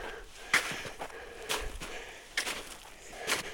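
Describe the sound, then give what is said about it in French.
Footsteps crunch through snow on a small snowfield at a mountain summit, four slow, evenly spaced steps that are fairly faint against a quiet background. “Je marche dans la neige. Le petit névé reste au sommet.”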